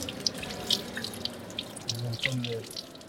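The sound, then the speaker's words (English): Running tap water splashes as hands are washed for wudu, the left hand washing the right and the right the left; a steady, fairly quiet stream with scattered small splashes and drips. “start with washing your hands. So your left washes your right, your right washes your left.”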